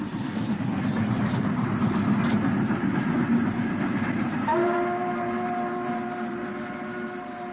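Rumbling wheels of a slow-moving suburban train roll on in a steady, dense clatter. Partway through, a sustained high tone joins the rumble and holds to the end.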